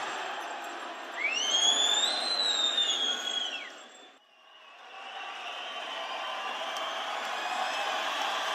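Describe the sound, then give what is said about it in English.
An electronic fire alarm tone goes off in an old building, triggered by someone smoking in a bathroom. A piercing tone with a fainter higher partner bends up and back down over about three seconds above steady hiss, then breaks off as the hiss continues. “It's not a fire, but it is a fire alarm.”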